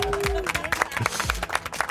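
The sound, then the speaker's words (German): Colleagues at a company celebration applaud a newly married coworker with scattered, uneven claps from a small group, mixed with voices talking over them. “Vielleicht noch großen Applaus von allen Mitarbeitern.”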